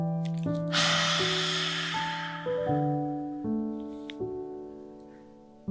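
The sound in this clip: A slow inhale during a seated yoga relaxation practice, one long airy breath of about a second and a half over soft, sustained background music.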